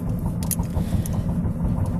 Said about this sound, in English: it's because I'm driving. And yeah, I can't exactly wear headphones and drive. So you're going to have a bit more background noise than usual today.